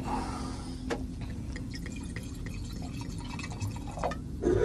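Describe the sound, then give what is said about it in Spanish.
Wine from a 2022 vintage poured into a wine glass, a steady liquid trickle with scattered drip-like splashes that swell slightly toward the end. “Me encanta que se escuche el sonido sí. de la copa.”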